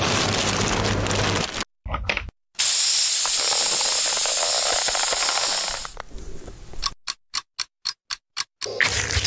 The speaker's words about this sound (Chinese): 然后这时候我们需要抽真空。